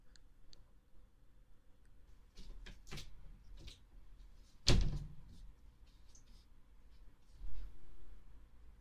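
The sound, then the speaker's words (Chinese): A door closing with one sharp, loud thud midway, set among faint scattered clicks and rustles in an otherwise quiet space. “我好像听到关门声了。”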